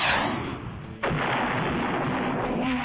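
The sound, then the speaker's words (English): A missile is fired from a cartoon character's chest as a blast-like effect. A rushing noise fades a little, then a sudden loud burst hits at about the midpoint and holds as a dense roar to the end. “how about I give you one of these missiles from my chest?”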